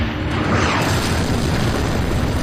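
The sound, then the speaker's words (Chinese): A deep, dense boom as an armor-piercing tank shell is fired at a German Panzer IV during an assault, a loud low rumbling blast that stays heavy and sustained through the whole stretch. “我们突进的时候通常用高爆弹，但如果碰到了坦克就改用穿甲弹，于是我们发射了一枚穿甲弹，”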